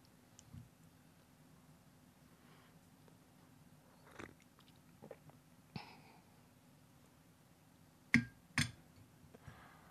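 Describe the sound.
Quiet sips of freshly brewed coffee, made from newly roasted, light-roast Guatemalan beans. A few short, soft slurping sounds are scattered through near-silence, and the loudest pair comes close together near the end.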